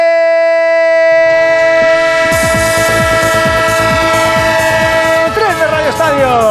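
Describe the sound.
A train sound effect plays as a jingle for a Spanish football results segment: steady, sustained horn-like chords run throughout, joined after about a second by a rhythmic metallic clatter of wheels over rail joints, loud and continuous.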